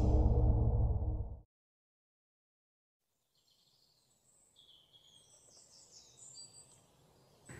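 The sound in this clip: Faint, high chirping of birds in the morning: light, scattered twitters that begin after a brief loud, low burst and a stretch of silence.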